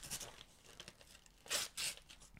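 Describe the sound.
Paper tearing as a present wrapped in Christmas paper is opened. Soft crinkling and rustling lead into two sharp, brief rips close together, all fairly quiet.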